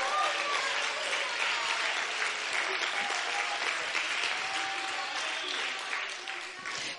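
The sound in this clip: A church audience applauding and cheering, with broad, steady clapping and voices mixed in that hold at an even level before tapering slightly at the end.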